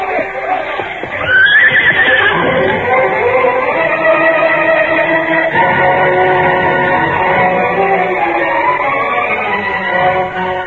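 A horse gives a loud, strong whinny about a second in, and a steady, sustained sound carries on beneath it for the rest of the stretch.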